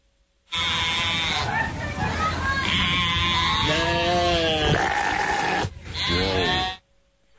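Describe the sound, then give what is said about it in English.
Sheep bleating, one of them sick: a series of loud, drawn-out, strained bleats follows one after another with wavering pitch, with a brief pause before the last call. “see if you can figure out which of these sheep is sick.”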